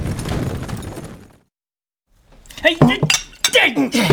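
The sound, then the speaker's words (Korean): A liquor bottle and cups clinking as drinks are poured for a general: a dense clatter of glass and crockery for about a second. A short silence follows, then voices speak. “아, 지금 이렇게 술병을 잡고 계실 때가 아닙니다, 장군! 잔 채워. 잔을 채워라.”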